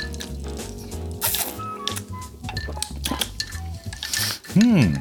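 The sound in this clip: A teaspoon clinks against a glass while someone tastes a drink. A few bright, brief clinks come through voices and a steady tonal background.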